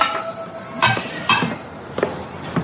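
Dishes clink as a plate is picked up during cooking. A few sharp, bright clinks are spaced apart over quiet background noise.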